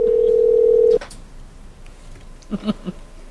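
Telephone keypad tones entering a number on a voicemail system: a steady, held tone that cuts off, then after a pause a few quick, short beeps in close succession.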